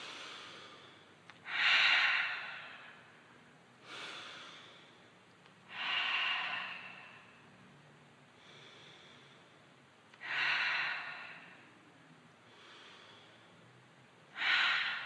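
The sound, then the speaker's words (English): Breathing in through the nose and out through the mouth during a guided breathing exercise in a room, faint and slow. Airy rushes come in a steady rhythm, louder breaths about every four seconds with softer ones between. “now connect with the body of water, in through the nose and out through the mouth”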